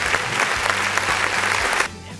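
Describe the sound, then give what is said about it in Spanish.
Applause from an audience: dense, steady clapping that is loud and even, then stops abruptly near the end, leaving quiet background. “muchas felicidades, aplausos, pues, por favor, Enhorabuena, amigos.”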